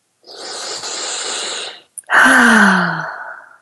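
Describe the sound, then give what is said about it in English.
A big, deep breath during a guided tapping exercise: a long, airy inhale, a brief pause, then a louder exhale that turns into a voiced sigh falling in pitch. “Big, deep breath.”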